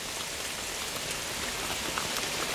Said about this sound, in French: Une chute implacable, mais relativement lente, de gouttes probablement assez légères. Une précipitation sempiternelle, sans vigueur.